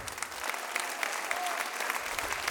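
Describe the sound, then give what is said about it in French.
An audience applauds at the end of a recorded evening show with dense, sustained clapping. It holds a steady, moderate level for the whole stretch, with individual sharp claps standing out here and there. “Merci aussi, on peut leur faire un grand bravo à Thomas au son,”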